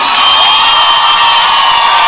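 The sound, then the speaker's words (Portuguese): A crowd at a sertanejo music show applauds and cheers with loud whoops in a dense, continuous wash of noise that stays at a steady high level throughout. “aplauso faz barulho.”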